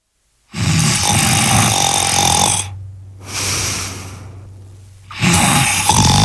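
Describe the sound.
A man snores loudly. Three long, rough, rasping breaths carry a low rumbling drone, with quieter breathing in the gaps between them.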